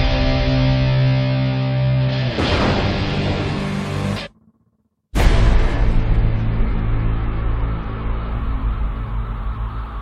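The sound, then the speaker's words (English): Loud cinematic sound from an action trailer for Batman vs. Superman: sustained low orchestral tones swell into a rushing surge, cut abruptly to silence, then return as a heavy booming blast that rumbles on. “Okay, so what you just heard was the final trailer for Batman vs. Superman, and yes, I know there wasn't a whole lot of dialogue at one point. This was an action trailer.”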